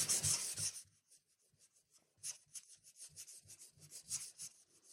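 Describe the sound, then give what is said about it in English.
Scratchy rubbing of a Sharpie marker pen crossing out writing on paper: one long, loud burst of scribbling, then a brief pause and many short, quick strokes at a quieter level, with no talking. “This is the sound of me crossing a lot of things out.”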